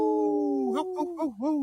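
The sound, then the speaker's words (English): A human voice imitating a wolf howl: a sustained tone that breaks into a wavering warble with a few dips in pitch, short and fairly loud. “Howl!”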